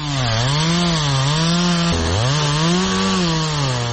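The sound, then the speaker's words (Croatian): Chainsaw cutting old railway sleepers: a loud, steady engine drone with a buzzing harmonic tone whose pitch wavers throughout and briefly dips around the midpoint before climbing back. “Proizvodila ga je motorna testera u rukama čovjeka koji je pilao stare željezničke pragove.”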